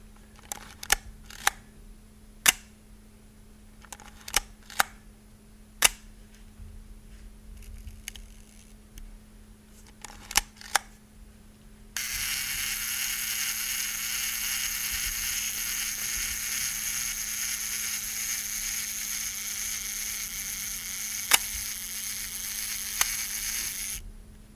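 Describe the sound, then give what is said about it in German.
Sharp mechanical clicks from a 1964 Leica M2 film camera: shutter releases and winding come first, then the self-timer lever is wound and set off. A steady, bright whirring buzz follows for about twelve seconds, with a click near its end. “das ist eine Leica M2 Baujahr 64. 2 Aufnahmen mit einer 250stel hat er gemacht, dann gespannt, den Selbstauslöserhebel spannen und dann aktivieren.”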